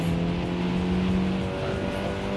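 Engine of a Mitsubishi Evolution racing car in a video game, a loud, steady droning hum with sustained low tones that hold level through the short stretch, with no voices.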